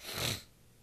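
A single sniff through a stuffy, congested nose: a brief breathy rush of air lasting under half a second, then fading to quiet.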